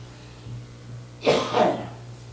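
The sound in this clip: Two harsh coughs from someone who has just choked, the second following closely on the first, loud against a low steady hum.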